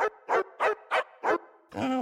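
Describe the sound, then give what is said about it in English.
A pet dog barks in a quick, evenly spaced run of sharp, loud barks, then finishes with one longer, more drawn-out bark. “As we say every time, that's Waffles. That's Sophie's actual dog.”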